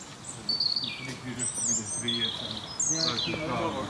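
Calls of a middle spotted woodpecker: a repeated series of nasal notes mixed with higher chirps and whistles of other birds, steady and moderately loud throughout.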